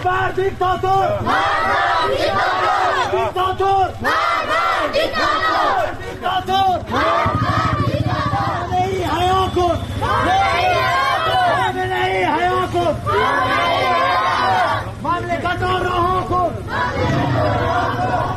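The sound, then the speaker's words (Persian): Street protesters in Rask, Iran, rallying for a Sunni Friday prayer leader summoned to the Special Clerical Court, chant and shout together in a loud, dense, continuous roar with rhythmic surges throughout. “در شهر رازکم مردم معترض به خیابان اومدن، اونجا هم در حمایت از مولوی نقشبندی امام جمعه اهل سنت راز که به دادگاه ویژه روحانیت احضار شده اومدن تو خیابون، همچنین در حمایت از مولوی عبدالحمید که ما صدای اونجا رو هم داریم.”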